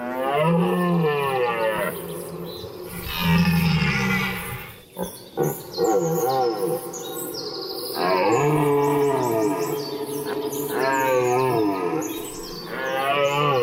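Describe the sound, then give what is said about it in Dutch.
Red deer stags bellow during the September rut at a fenced deer area with cattle grids near Ermelo in the Netherlands. Long, loud, deep groaning roars repeat with brief pauses between them, with no talk. “We waren daar in september, midden in de bronsttijd van de herten... en de geilheid van die herten die klotste daar over de wildroosters.”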